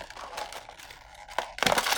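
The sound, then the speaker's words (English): Plastic packaging of a new Fluidmaster Universal PerforMAX toilet flapper, number 502, being torn open: soft crinkling, then a sudden louder burst of tearing and crackling near the end. “So let's grab our new one, our new Fluidmaster Universal PerforMAX Longest Lapping Flapper number 502. Let's rip this open.”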